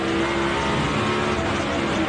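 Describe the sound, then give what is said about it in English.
The engine of a Toyota Camry NASCAR race car gives a loud, continuous drone with a steady whining tone running through it, and its pitch stays even without clear revving. “This is a Camry. This is a Camry on NASCAR.”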